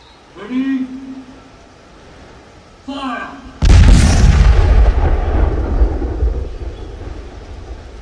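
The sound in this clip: A gunpowder charge fired by pulling a cable goes off in one deep, very loud boom with a long rumbling tail. Before the blast, voices are heard briefly.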